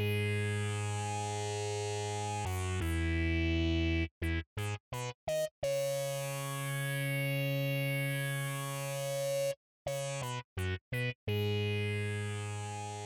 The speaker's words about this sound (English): Also played an octave higher is a bright, fuzzy synth sound with a phaser. kind of adds an interesting texture to the mix.